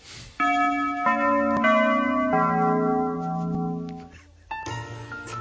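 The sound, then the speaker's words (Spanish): A church-style bell sound effect tolls with several struck notes, each ringing out in rich, layered overtones that sustain and blend, softening briefly before one last strike rings clearly again near the end. “Pon las campanas.”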